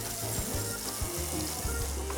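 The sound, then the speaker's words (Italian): Porcini mushrooms sizzle while browning in salted oil, a steady, dense crackling hiss with no gaps. “Guardate, la rosolatura della, del porcino che prende colore, frattempo che andiamo a mettere il pomodorino.”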